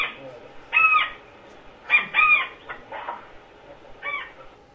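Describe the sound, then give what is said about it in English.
Calls of a bird on the Amazon river: a few harsh, harmonic, arching calls that repeat irregularly over a steady background noise. “This was our first Amazonian bird.”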